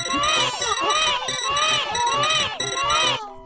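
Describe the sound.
Baby Mario crying in a Yoshi video game: repeated high, wavering wails that bend up and down in pitch over a pulsing rhythm. They continue loudly for about three seconds, then cut off.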